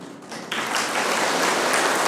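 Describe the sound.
Applause from an audience at a Buddhist talk, breaking out suddenly after a quiet half-second and continuing as a steady, dense wash of clapping.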